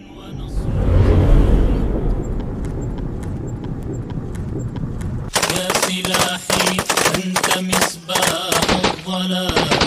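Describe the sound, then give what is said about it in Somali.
Gunfire from various guns rattles in rapid, loud bursts of sharp shots in an Al-Shabaab film of fighters firing at soldiers at a checkpoint, taking over the second half after a stretch of rough, swelling rumble. “qaybaha hore ee filmka kooban waxaad ku arkaysaa ciidamada military xarakada mujaahidiinta Al-Shabaab oo rasaas noocyada kala duwan oo dadka qaaday askarta isbaarada joogtay”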